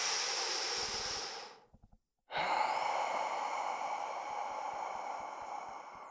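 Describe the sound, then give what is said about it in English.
Slow, deep breaths for a calming exercise, with each breath drawn in and let out over several seconds. A long, airy breath fades, then after a short pause another long, steady breath follows. “So in for 2 or 4 seconds and then out for 4 or 8 seconds.”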